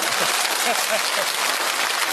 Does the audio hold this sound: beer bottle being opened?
no